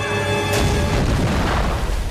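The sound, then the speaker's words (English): A grenade explodes in a film battle scene as a soldier falls onto it in a paddy field: one sudden loud blast at about half a second, followed by a sustained rumbling roar to the end. “He falls into the paddy field, onto a grenade.”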